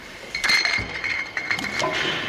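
Glass olive oil bottles clink during bottling and order packing at an olive oil producer, giving several light, bright clinks and knocks at irregular intervals over steady background noise.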